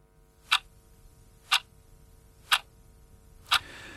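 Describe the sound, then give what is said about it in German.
Clock ticking: four sharp, evenly spaced ticks, one each second, standing alone over a faint low hum with no voices. “Die Uhr ticket zu Großbritannien.”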